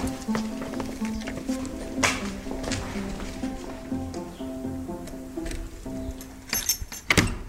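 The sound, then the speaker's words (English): A cell block door opens into a heritage building: faint metallic clanks, rattles and knocks, with sharper, louder clatters near the end over a low, steady hum. “So that's the sound of the cell block door opening and we're going into the building.”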